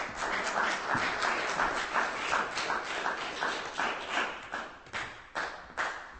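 Audience applause for a performer at a reading: dense, steady clapping that holds at an even level for several seconds, with a few sharper claps near the end.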